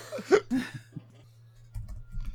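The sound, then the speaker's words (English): Keyboard typing as a web search is entered on a work computer: a short run of soft, quick key clicks near the end, after a brief faint vocal sound. “You do the sketch, and I'm going to Google it. On your work computer.”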